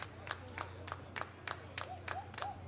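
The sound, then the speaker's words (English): Long, slow claps from the Salem home crowd at a minor-league baseball game in extra innings, a faint series of crisp, evenly spaced claps in steady rhythm over a low background hum. “Some long claps from the Salem faithful. Now the entire crowd getting into it.”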